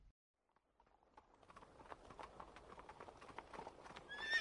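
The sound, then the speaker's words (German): Horses' hooves clip-clop as riders move slowly through town streets. Many steady clops rise out of near silence and grow louder, with a whinny near the end. “Langsam reiten sie durch die Straßen.”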